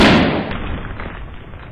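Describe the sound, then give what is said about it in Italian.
A sudden, loud bomb-like blast in a house, set off when a fireplace was lit. It starts with a sharp crack and dies away within two seconds into a rumbling, crackling hiss. “Dio, che bomba! È parsa proprio una bomba”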